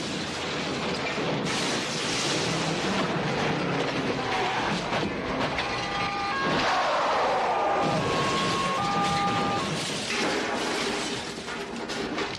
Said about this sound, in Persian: حق تقدم با قطار شهریه